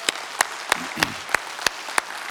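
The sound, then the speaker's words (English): Audience applause at a church service welcoming first-time guests: dense, steady clapping with regular accented beats running through it at an even pace. “Can we give it up to all of our first time guests today?”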